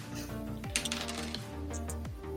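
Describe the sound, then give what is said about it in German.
Dice rolling in a dice-based tabletop-style game, a brief burst of quick light clattering clicks that stands out faintly over a steady, sustained tonal background. “Ich habe mit beiden 17 gewürfelt.”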